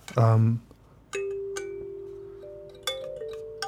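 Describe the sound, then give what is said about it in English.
Notes plucked one by one on a kalimba (thumb piano, mbira), unhurried, each a ringing metallic tone that lingers and overlaps the next. “Maybe more colloquially known as a thumb piano. And I, it's very fun to mess around with. Let you hear.”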